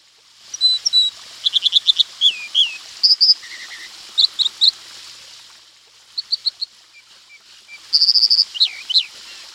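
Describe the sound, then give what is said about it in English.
An American dipper, a chunky songbird of western streams, sings bright, high-pitched rapid trills and repeated whistled phrases in bursts separated by short pauses, over a soft steady hiss. “That was a sweet sound of a chunky bird of western streams, the American dipper, also known as water ouzel.”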